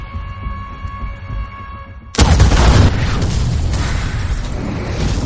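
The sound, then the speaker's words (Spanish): A sudden loud blast from a briefcase bomb set off in a municipal office, with petrol spread over a table, cuts in after a quieter stretch of steady hum. It gives way to a sustained, heavy roaring rumble. “La explosión alcanza a un hombre y otros dos logran escapar.”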